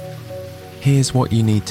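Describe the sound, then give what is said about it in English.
Light backyard rain from the Deep Sleep Sounds app makes a soft, steady hiss that runs throughout, with a person speaking over it. “I'd recommend the sound you're hearing right now, called Light Backyard Rain.”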